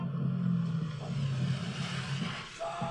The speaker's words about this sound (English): Of course he drives a Jeep. With no roof.